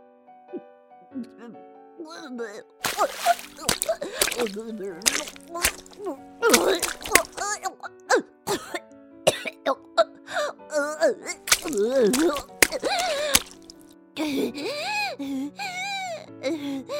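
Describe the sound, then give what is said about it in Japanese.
A voice acting out vomiting into a tub: a string of strained groans, gagging moans and gasps over soft background music. “吐いてしもうた。”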